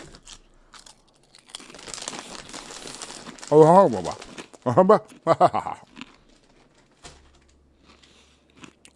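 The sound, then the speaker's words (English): A bag of salt and pepper chips crinkles and rustles as the chips are eaten, with loud crackling bursts and crunchy bites in uneven clusters between quieter stretches. “we bought some snacks, including these delicious salt and pepper chips, which are quickly becoming my favorite flavor.”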